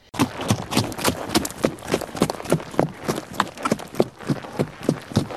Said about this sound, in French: Elle se dirigea vers lui au trot, toute contente de revoir l'animal.